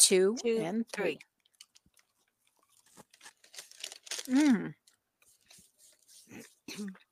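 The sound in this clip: Two people bite into and chew a cinnamon donut cut in half: soft crunches and wet mouth noises, mixed with appreciative hums and brief talk.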